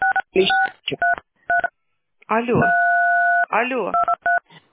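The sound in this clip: Telephone keypad tones from buttons pressed during a call to a service line: several short two-tone beeps and one longer held tone. A voice talks in between and over them.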